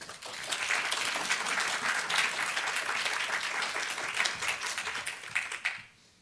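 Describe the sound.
Audience applause welcomes a speaker before a talk on Chesapeake history: dense, steady clapping holds at an even level, then drops off abruptly near the end.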